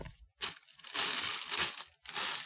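A plastic bag crinkles as it is handled, giving a few bursts of dry rustling and crackling separated by brief quiet gaps, moderately faint and with no voices.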